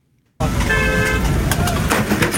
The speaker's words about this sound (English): But the only thing the driver could worry about was honking his horn because the guy fell down.